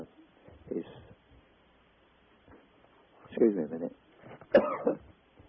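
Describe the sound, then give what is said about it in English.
A person with a hoarse throat coughs and clears their throat in a few harsh, rough bursts separated by quiet gaps, the last two louder than the first. “beg your pardon, I had to have a little cough there. My throat was getting a little bit hoarse.”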